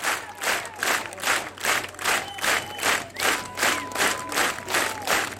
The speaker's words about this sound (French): Le public du festival de Château-Vallon en redemande, comme vous pouvez l'entendre.